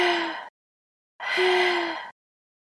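Heavy panting from someone out of breath after climbing stairs to a fifth floor. There are two loud, rasping breaths with a slight voiced edge, separated by a short silence. The second breath is longer than the first.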